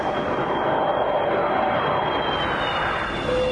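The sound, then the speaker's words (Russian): Airplane taking off on a Moscow-to-Miami flight, a loud, continuous engine roar with a thin high whine on top, holding steady throughout without voices. “Американец посадил его на самолет, вылетающий рейсом Москва-Майами.”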